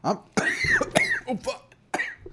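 Harsh coughing from someone choking on a popcorn kernel stuck in the throat: a few rough, throaty hacks and rasping clears in an uneven series, with short pauses between them.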